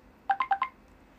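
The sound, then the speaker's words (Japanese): A messaging app notification chimes on a phone: four quick, bright electronic beeps in an even rhythm, fairly quiet and heard alone. “ちょっと LINE が鳴っちゃいました”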